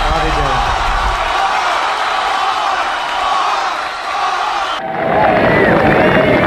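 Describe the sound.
A concert crowd cheering and applauding as a performer is introduced, a loud roar of clapping, whoops and shouts that dips briefly and then surges back, with a voice speaking over it.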